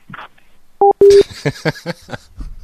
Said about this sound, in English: Why are we still on the phone? Just hang up the phone. Okay, hang it up.